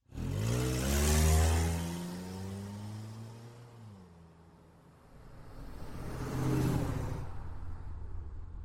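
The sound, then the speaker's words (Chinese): A car engine starts and revs, then accelerates away from a parking lot. The roar surges loudly early on, falls away to a lower hum, and then swells again toward the end. “也不管我是否同意，就急着发动了车子，风一样的驶离了停车场。”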